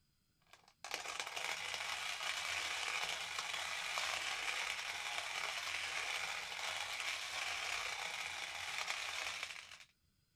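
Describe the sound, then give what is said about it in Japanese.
Coffee beans being ground in a hand-cranked coffee mill: a steady, dense, gritty crunching and rasping that starts abruptly, holds at an even level for about nine seconds, then stops. “私、手挽きのコーヒーミルでコーヒー豆を挽く音、すごく好きなんです。”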